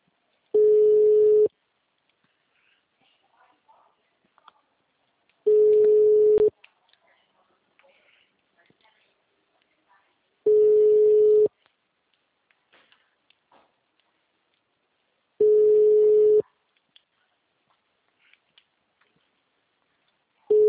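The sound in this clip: Ringback tone of an unanswered telephone call: four steady, one-second mid-pitched beeps about five seconds apart, with near silence between them and the start of a fifth beep at the very end.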